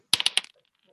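Dice rolling on a table during a tabletop roleplaying game: a quick run of sharp, bright clicks and clatters that trails off into small, fading rattles.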